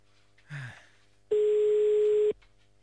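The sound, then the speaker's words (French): A telephone line tone sounds while a call to Brussels is being placed: a short, soft noise comes first, then a single steady, mid-pitched tone lasting about a second that cuts off abruptly. “On appelle à Bruxelles maintenant. Allez, hop, là, ça marche pas. Ça fonctionne.”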